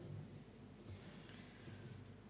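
Stormy weather with water: a steady, faint wash of rain-like hiss and wind over a continuous low rumble, holding an even level for the whole stretch with no voices.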